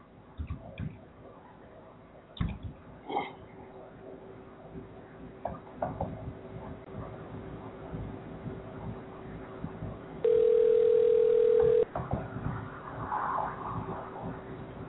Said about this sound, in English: I'm dialing out right now.